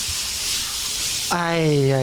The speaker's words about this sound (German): Oh, habe ich dich vermisst, kaltes Wasser. Sie sind jetzt echt unter der Dusche, ach, ne?